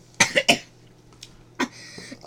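Sharp, loud coughs, three in a quick cluster and then a fourth after a short pause, with no talking over them.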